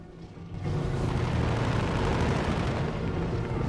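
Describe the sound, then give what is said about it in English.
A Spitfire fighter fires its guns at a Messerschmitt: a dense, roaring burst of rapid gunfire erupts after a quieter half-second and continues loud and unbroken to the end. “They pass off the Moonstone's port side, then bank and climb. One fires on a Messerschmitt.”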